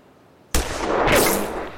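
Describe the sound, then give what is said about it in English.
A rifle shot during target shooting cracks out with an abrupt, loud onset, then trails into a broad, noisy wash that swells slightly before fading. “Now, raise the end up of the rifle just a little bit and put that black sight post right in the middle.”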